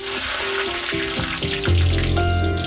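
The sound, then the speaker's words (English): Butter and diced onion sizzle in a piping hot pan, giving a steady, crackling hiss that runs throughout with no voices. “A piping hot pan. Ooh. A spoonful of butter melts gently across the surface. Throw in your diced onion and within seconds, the ingredients begin their transformation.”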